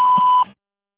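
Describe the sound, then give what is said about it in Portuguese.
A single steady electronic beep from an answering machine signals the start of message recording, a clean mid-high tone lasting under half a second before cutting off into silence. “Por favor, deixe sua mensagem após o sinal.”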